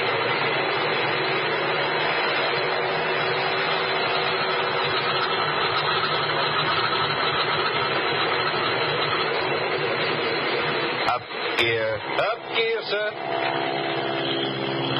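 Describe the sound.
Airplane engine running before takeoff on a passenger and mail flight, a steady droning rumble that holds throughout, with brief voices over it near the end.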